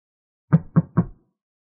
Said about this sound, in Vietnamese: Một tên gõ cửa và cánh cửa đã được mở ra.